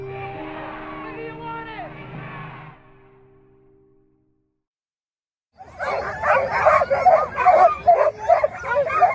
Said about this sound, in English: That is the sound of some very good dogs at the start of the Iditarod in Anchorage on March 7th.